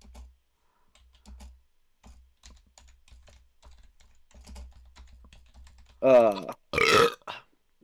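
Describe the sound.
Typing on a computer keyboard: many soft, quick keystrokes tap along unevenly, then a few loud, voiced burp-like sounds break in near the end.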